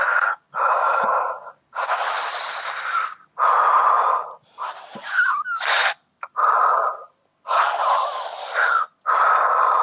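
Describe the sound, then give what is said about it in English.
Heavy breathing in and out through the mouth comes as a series of loud, rasping breaths, each about a second long, separated by brief silent pauses. “I was saying breathe in and out 5 times heavily with your mouth.”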